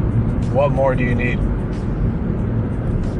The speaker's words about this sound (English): I'm driving once again from Carpinteria down to Los Angeles